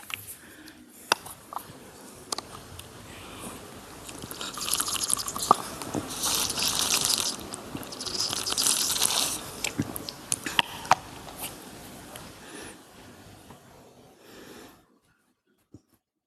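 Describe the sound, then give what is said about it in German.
A speaker pours a drink during a talk: a soft, hissing stream of liquid builds in the middle, mixed with small clicks and breaths, then fades to quiet. “Ich lasse euch den mal selber lesen, damit ich was trinken kann.”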